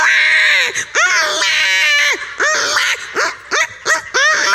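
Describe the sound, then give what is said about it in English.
A human voice imitates babies crying, producing repeated loud wails. Each wail bends in pitch and breaks off, with short gaps between the cries. “So you go to change the baby's diaper and you got to bring in a whole case of Depends because they should be mature. And the babies are crying.”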